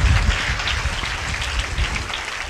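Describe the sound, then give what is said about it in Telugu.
An audience at a sermon applauds, a dense and steady wash of hand claps that stays fairly loud from start to finish with no speech on top. “చప్పట్లు కొట్టి ఆయన్ని గణపరుస్తామా”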